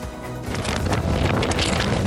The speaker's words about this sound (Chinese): 今年第七号台风兰恩持续逼近东京南方的小笠原群岛，还没带来降雨，就先为当地吹起阵阵强风。